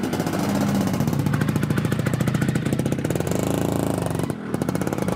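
A Vespa scooter's small engine runs with a rapid buzzing, puttering beat as the rider sets off. The sound stays fairly loud and steady throughout, with no voices.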